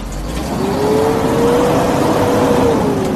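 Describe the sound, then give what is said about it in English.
Car engine revving as the driver gives it gas: a loud, steady mid-pitched drone with an engine whine that climbs a little, holds, then drops near the end. “Why you giving so much gas? Don't take all of that. You told me don't be scared to give us some gas.”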